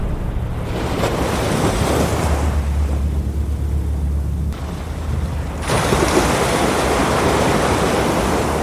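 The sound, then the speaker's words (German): Ocean waves and wind on the rugged west coast of Vancouver Island: a continuous loud roar of surf and blustery air with no pauses, swelling noticeably stronger and brighter toward the end. “Das, was ihr da gerade hört, ist dieses Kino im Kopf. Das ist die Westküste von Vancouver Island. Schroff und beeindruckend. Manchmal auch bedrohlich. Urwälder, Klippen, Wellen, gern eine steife Brise.”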